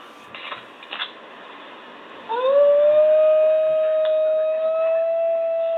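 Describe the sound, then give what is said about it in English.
A New Guinea singing dog howls: one loud, sustained tonal wail that slides briefly upward at its onset, then holds a steady pitch to the end, with rich overtones. A few brief soft noises come before it. “The species is known as the New Guinea singing dog and sounds like this.”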